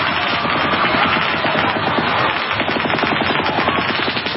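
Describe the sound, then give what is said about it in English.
Gunfire from multiple firearms: a loud, dense barrage of rapid overlapping shots that runs without a pause from start to end. “That is multiple firearms.”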